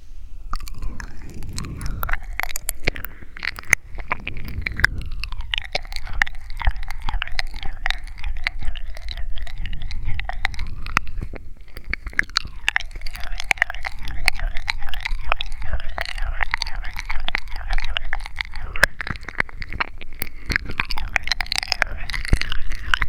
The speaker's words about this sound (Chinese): 我舔得不够快吗？好，既然这样，那我就试试快一些。